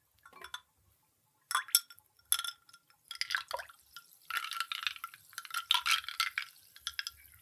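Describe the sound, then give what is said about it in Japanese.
A medicine spoon stirs liquid in a glass, making many light, bright clinks and small liquid splashes in uneven bursts separated by short pauses, quiet overall. “ちょっとかき混ぜてみてもいい？この薬さじで。”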